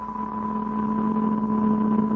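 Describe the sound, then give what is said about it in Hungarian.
Steady mechanical hum of a coffee roaster machine being started up, a constant low drone with a clear tonal whine above it, gradually growing slightly louder. “Most pedig helyezzék üzembe a kávétőzőt. Igenis.”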